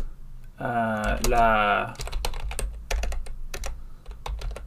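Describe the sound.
Typing on a computer keyboard: rapid, irregular clicks and taps of key presses follow a brief voiced sound at the start.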